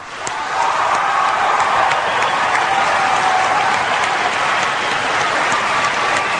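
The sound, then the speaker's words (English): Audience applause fills a debate hall as the candidates are welcomed, a steady, dense wash of clapping that swells in at the start and holds loud and even throughout, with no voices standing out. “The audience here in the hall has promised to remain very polite. No cheers, applause, no untoward outbursts. Except right at this minute now as we welcome Governor Palin and Senator”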